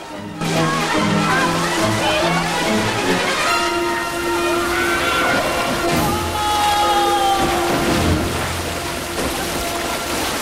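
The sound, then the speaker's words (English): Loud, steady sloshing and splashing of water as people shoot out of tunnel openings into a pool in a vast cavern, the churning continuing without a break throughout. “They twist and tumble onwards until they each shoot out of a different opening into a pool in a vast cavern.”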